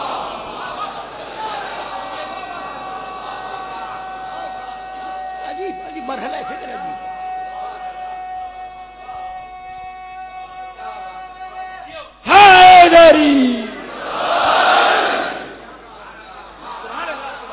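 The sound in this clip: A crowd at a religious gathering shouts slogan responses in unison, two loud massed bursts of voices near the end that rise sharply above a long, quieter, steady stretch before them.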